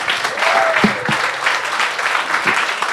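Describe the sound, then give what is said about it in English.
Audience applause at a live recording event: steady, dense clapping from a crowd that stays loud throughout, with no talk over it. “Give it up for Ryan.”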